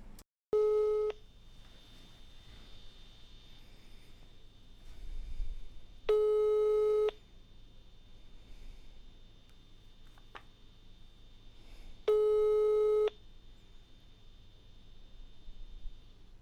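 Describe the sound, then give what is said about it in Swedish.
A telephone ringback tone plays while someone is being called: three steady, even-pitched beeps of about a second each, spaced roughly six seconds apart, with faint hiss between them. “Vi, vi, vi prövar att slå henne i en signal så ser vi vad som händer.”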